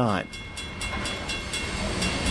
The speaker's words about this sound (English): Coal trains still rumble through Holland, connecting the city's past to its future.